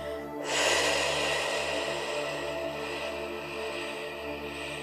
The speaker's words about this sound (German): Halten, halten, halten, halten und durch geöffneten Mund ausatmen.